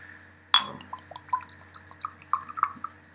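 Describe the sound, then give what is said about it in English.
Whiskey, at least 12 years old and aged in bourbon and Oloroso sherry casks, poured into a small glass: a sharp glassy clink, then a faint run of light drips and trickling splashes with a few brighter ticks, no voices. “pour that in. Whoa, that's quite a big shot, I think. But so got in my little tiny glass here.”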